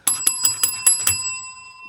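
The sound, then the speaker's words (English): A bell rings six times in quick, evenly spaced strikes, a bright metallic tone with clear overtones, the last ring left to fade out alone. “Well, you don't realize it, but you could ring the bell for yourself a lot, too.”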